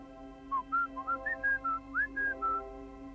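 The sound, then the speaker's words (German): Someone whistles a quick melodic phrase of about ten short notes that step up and down in pitch, soft and clear over a steady low hum. “Da hörte ich den Pfiff.”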